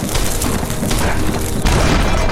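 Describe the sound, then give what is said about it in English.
Dynamite explosions in a video game make a loud, dense, booming roar that fills the whole clip and surges to a fresh burst partway through. “This is a much more wide open area where dynamite would be a wonderful weapon to use. Like that on you. You're too far away. But I'm going to use this on you. In fact, I'm going to use two of them.”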